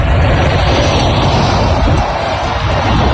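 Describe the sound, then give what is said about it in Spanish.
A wildfire near Navas de San Antonio in Segovia gives a dense, continuous rushing roar that stays loud and steady throughout. “Este es el sonido del fuego, el que están escuchando.”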